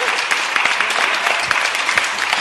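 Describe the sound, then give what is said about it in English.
A live studio audience applauding: dense, steady clapping that holds at an even level throughout, with no voices over it. “Monster of the Week is filmed before a live studio audience.”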